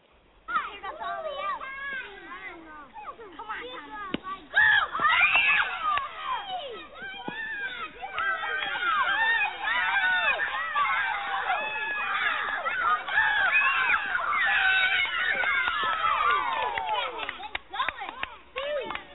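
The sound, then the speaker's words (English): Children play and shout on a playground, many excited young voices calling and squealing over one another in a continuous, lively din. “let's hear the sound of the kids when they're out on the playground. And I know that you had this same sound, and you can hear the kids in the background encouraging you to come and play.”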